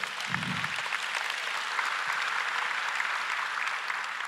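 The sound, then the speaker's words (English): Church audience applause: a steady, even wash of clapping that holds at a constant moderate level throughout, with one soft low thump near the start. “so give yourself a clap, all right?”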